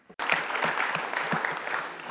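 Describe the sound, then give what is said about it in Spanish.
Audience applause for the speakers and the chair at a conference session begins abruptly after a brief silent moment and continues as dense, steady clapping from many hands. “Un aplauso, por favor, para los ponentes y para la presidente.”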